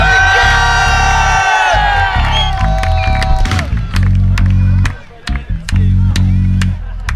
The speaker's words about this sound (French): Du bruit, une ovation pour lui, s'il vous plaît.